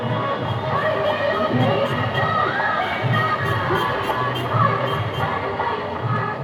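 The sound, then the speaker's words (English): A crowd of people walks to the banks of the River Ganga in Patna. A steady, dense hubbub of many voices carries scattered shouts and higher-pitched calls, without a break. “Patna becomes a different city and hordes of people walking to the banks of River Ganga. It's quite an interesting sight actually.”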